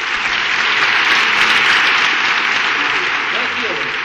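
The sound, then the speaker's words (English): Audience applause welcoming a presidential candidate onstage: loud, continuous clapping with a slight swell in the middle before easing off a little toward the end. “Please hold your applause till the very end.”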